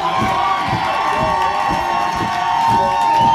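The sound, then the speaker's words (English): A crowd at a live music show cheers and applauds for a band, with loud whoops and shouting layered over steady clapping and a row of low, regular thumps underneath. “Let's make some noise. Give it up for the Ava brothers.”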